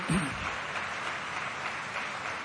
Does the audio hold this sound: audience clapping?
yes